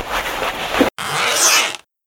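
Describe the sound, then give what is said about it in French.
A zipper pulled on an anti-radiation suit being put on: two long rasping zip strokes split by a brief pause, the second rising slightly in brightness before stopping abruptly. “Mets ta combinaison anti-radiation et on va ouvrir la porte.”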